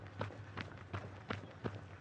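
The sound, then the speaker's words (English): Running footsteps going downhill: six quiet, evenly spaced footfalls keep a steady running rhythm. “Now I'm running downhill, trying to get around the 7 minute 45.”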